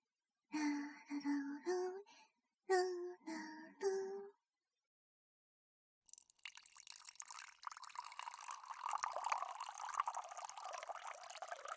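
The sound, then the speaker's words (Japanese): Hot water poured from a water heater into a cup for tea: a steady, splashing stream lasting about six seconds, following a short stretch of a person talking. “飲み物は温かいお茶でいいですか？少し待ってくださいね。給湯器にお湯を沸かしてあるんです。”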